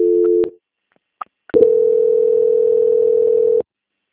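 Telephone line tones during a call transfer: a short steady tone, a few faint clicks, then a longer unbroken single-pitch tone of about two seconds that stops abruptly.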